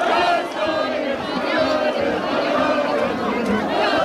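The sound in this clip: Crowds across Spain celebrating a football World Cup semifinal win, a dense, steady roar of many voices shouting and cheering together, loud and continuous with no pauses.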